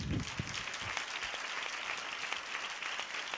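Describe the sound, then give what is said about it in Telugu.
Audience clapping at a Christmas gathering, quiet and continuous, with a few low thumps near the start. “చెప్పలు కొడతారు ఒకసారి గట్టిగా చాలా పొదుపు చేస్తున్నట్టున్నారు ఈ చప్పట్లు”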